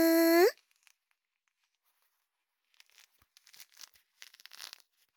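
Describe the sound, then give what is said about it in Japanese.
Soft tearing and crinkling of a mandarin orange being peeled comes as a few faint, scattered bursts in the second half, after a short, loud tonal beep at the very start and a stretch of near-silence. “正解は、みかんだよー。一房取って、はい、あーん、”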